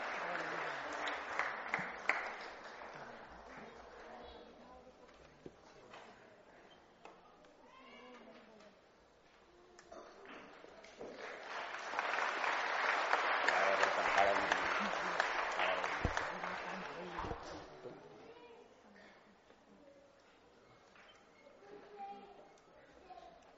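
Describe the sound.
Applause from an audience at a prize-giving ceremony as a third-place winner receives a trophy, cash prize and certificate; steady clapping swells loudly in the middle before easing off, with voices talking alongside.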